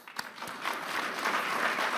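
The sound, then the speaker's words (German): Audience applause for Argentina's president after he speaks of wiping out the deficit and lowering inflation: a dense, steady clatter of many hands that swells slightly and holds. “Das verdiene Applaus. I think the president really should get an applause for that.”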